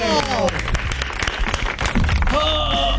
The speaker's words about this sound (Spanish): fuerte el aplauso para Sarasa. ¡Vamos,